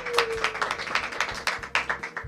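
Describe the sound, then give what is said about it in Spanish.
Uneven hand clapping at the start of a university debating association's radio programme, opening its second season; a run of scattered, irregular claps of moderate loudness. “así que un aplauso, ¡bien!”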